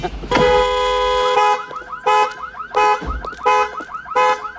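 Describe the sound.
A car alarm goes off, starting with a long steady wail and then pulsing in loud repeating bursts of rapid, swooping electronic chirps. No one talks over it.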